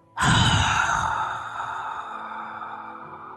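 A single long exhale from inside a closed helmet begins abruptly, then slowly fades over about three seconds as a breathy, hollow hiss with no talking.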